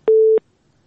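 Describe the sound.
A phone line busy signal after a call disconnects: one steady, mid-pitched electronic tone lasting about a third of a second, then silence.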